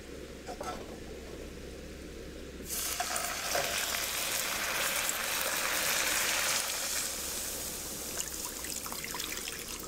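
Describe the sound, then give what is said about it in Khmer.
Sugar caramelizing in a pan sizzles with a steady hiss that jumps suddenly much louder about a quarter of the way through and stays strong to the end. “ដល់ពេលដែលស្ករចាប់ដើមឡើងឈ្ងុយការពារកុំឲ្យខ្លោចដូច្នេះគឺយើងត្រូវដាក់ទឹក”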